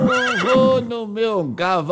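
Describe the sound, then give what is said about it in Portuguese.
A horse whinnies in a few wavering, high-pitched neighing calls, each with a shaky, bending pitch, loud and close together with brief gaps between them. “Eu vou no meu cavalinho,”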